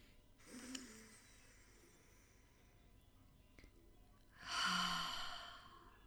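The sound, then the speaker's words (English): Deep breaths drawn in through the nose and let out through the mouth during a guided relaxation: two soft, breathy rushes separated by a quiet pause, the second louder and longer than the first. “We're going to take in three deep breaths, in through our nose and out through our mouth.”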